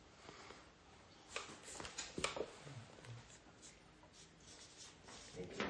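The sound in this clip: Quiet scratching of someone writing a word by hand, soft uneven strokes and rubs with a few sharper taps.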